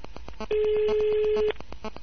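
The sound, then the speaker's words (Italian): A steady one-second telephone tone sounds as a call to a mobile customer service line is transferred, held at an even level over a faint, rapidly pulsing background. “Resti in attesa. Stiamo trasferendo la sua chiamata al 155.”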